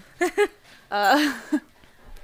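A dog howls: two short yelping cries, then a longer wavering, tuneful howl that trails off. A brief final cry follows, with quiet between the calls.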